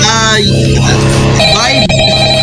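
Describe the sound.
Phone ringtone for an incoming call, a melodic electronic tone playing continuously under voices talking over it.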